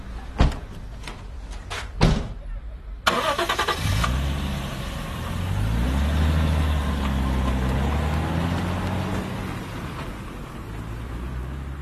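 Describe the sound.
A car engine starts and settles into a low, steady idle, preceded by a few sharp thuds like car doors shutting.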